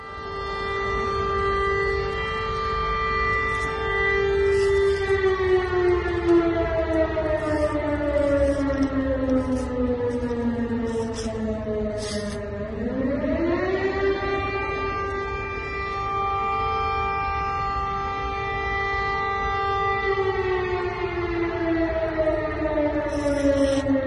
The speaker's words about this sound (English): I'm going to play a little clip here, and this is so you can hear that there are sirens going off over in Donetsk.